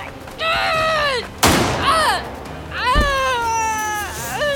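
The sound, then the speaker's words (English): A gunshot fired during a heated confrontation: one sharp, loud crack that breaks into high, wailing, anguished voices that continue before and after it. “What did you just do? You just shot him!”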